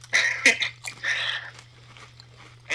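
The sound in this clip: Crisp crunching bites into a Philly cheesesteak flavoured potato chip, with a few sharp crunch bursts followed by chewing, over a low steady hum.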